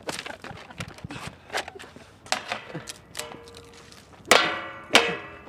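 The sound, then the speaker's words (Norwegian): A potted plant is struck against a rubbish bin: scattered knocks and scrapes build to two loud metallic clangs near the end that ring on briefly, with no voices. “Slå planten mot søppelkassa her.”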